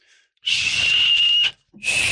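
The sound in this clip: Breathy, hissing whistle made by blowing across the mouth of a small bottle of Sauerland herbal liqueur. It sounds as two blows, the first about a second long at a steady high pitch, the second cut off at the end.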